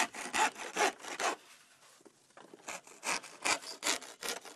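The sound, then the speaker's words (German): A hole is cut into building insulation to fit a drainage pipe. Rasping back-and-forth sawing strokes come in a quick rhythmic run, pause briefly, then resume with another run of many strokes. No voices. “schneidet ein Loch in die Dämmung”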